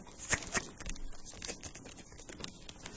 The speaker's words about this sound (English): I'm going to start dealing these cards. Deal them up.